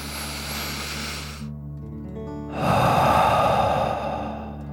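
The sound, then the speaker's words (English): A deep breath in and out through the mouth, part of a calming children's breathing exercise. A soft airy inhale and a short pause lead into a louder, rushing exhale, with faint steady tones sustained underneath. “Deep breath in and out.”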